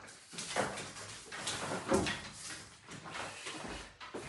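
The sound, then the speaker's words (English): A window being opened by hand: a few knocks, rattles and scraping frame sounds at moderate loudness, with one stronger thud near the middle. “I'm just going to open the window. Sorry, two secs.”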